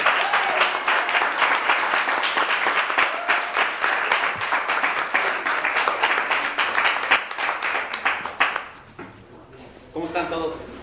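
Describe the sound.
An audience at a community event hosted at a cafe breaks into loud, dense applause to welcome a speaker. The clapping is sustained for about nine seconds, then thins out as a voice begins speaking.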